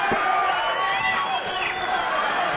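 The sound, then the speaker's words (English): An audience at a live show cheers in a dense, steady crowd roar that holds at an even level throughout. “Motherfuckers getting a little carried away. All fucking hand clapping.”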